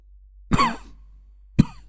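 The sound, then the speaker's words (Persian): Two coughs from an elderly man: a longer, raspy cough first, then after a pause a single short, sharp one, heard alone. “سرفه‌ای کرد و ادامه داد:”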